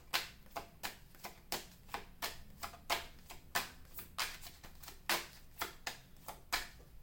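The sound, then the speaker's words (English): Tarot cards are shuffled and drawn during a reading, making many crisp, quick snaps and flicks at a fairly steady rhythm over a faint low hum. “There is a lot of fire in these. May I have two more cards,”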